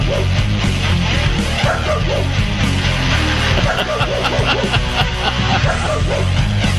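A dog barks repeatedly in a loud, dense, noisy stretch, with sharp barks and yips running continuously from start to end.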